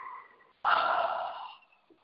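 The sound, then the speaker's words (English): A single deep breath, an airy rushing sound that starts abruptly, holds for about a second and then tapers away, heard on its own without talk. “Take a deep breath.”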